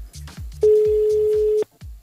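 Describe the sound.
A single steady telephone tone as a call is placed, about one second long, sounding over quieter talk.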